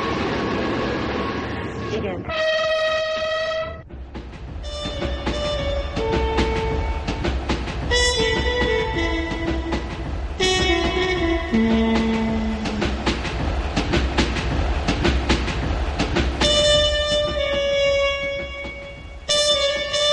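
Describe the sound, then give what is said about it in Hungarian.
A Budapest pioneer railway train running through a 198-metre tunnel, with a loud, continuous rumble of wheels and carriages and shrill tonal squeals that shift in pitch throughout. “ez a legérdekesebb, azt hiszem az egész vonalon ez a 198 méter hosszú alagút. Már látom a végét az alagútnak.”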